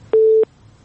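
Telephone busy tone after a caller's line is cut off: a single short, steady, mid-pitched beep that stops abruptly, with near silence after it.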